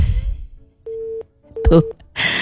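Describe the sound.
A telephone busy tone sounds after the other party hung up: two short, even beeps at one steady pitch with a gap between them, set between bursts of talk.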